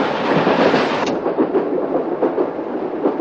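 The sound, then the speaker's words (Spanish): A steam train travels across a snowy steppe with a heavy, continuous rumble and a faint rhythmic clatter of the wheels, loud and steady throughout with no voices. “Es de día, el tren continúa por la nevada estepa dejando atrás un largo rastro de vapor espeso y blanco.”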